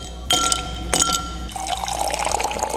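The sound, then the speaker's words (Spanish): Ice cubes clink sharply into a glass in two distinct drops, then a continuous rush of liquid pouring into the glass follows. “Pero es momento de echar unos hielitos ahí al vaso.”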